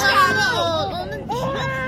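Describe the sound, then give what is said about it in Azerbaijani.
A baby who has just woken cries in a sustained, wavering wail with sliding pitch, loud and continuous throughout. “Ağlama canım, ağlama.”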